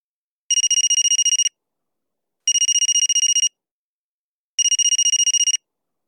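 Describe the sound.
A telephone ringing before a call: three bright electronic trilling rings, each lasting about a second with rapid pulsing inside it, separated by even pauses of silence.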